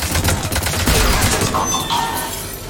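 Enemy turrets fire in a shooter video game, a loud, dense barrage of overlapping shots and crackling bursts that continues throughout without a break.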